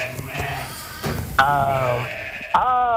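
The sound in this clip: Sheep loose in a fenced area give two wavering, nasal bleats, the second rising in pitch, over a steady low background sound.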